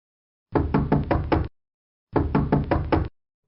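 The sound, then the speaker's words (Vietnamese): Pounding knocks on a door come in two loud bursts, each a rapid cluster of about four heavy thuds, separated by a short silence. “Đột nhiên bị tiếng đập cửa làm cho giật mình.”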